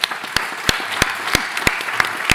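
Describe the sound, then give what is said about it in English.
Audience applause for the speakers at the close of a festival talk, a steady wash of many hands with a few sharp, louder claps standing out at irregular intervals. “Please join me in giving our speakers a warm round of applause.”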